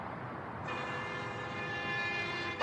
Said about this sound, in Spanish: Un suburbano recorre las vías elevadas que atraviesan el barrio.